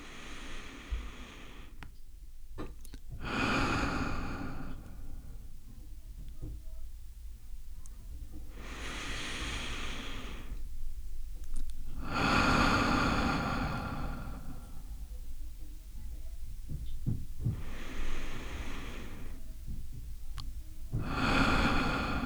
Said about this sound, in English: breaths in through the nose and out through the mouth with the exhale longer than the inhale.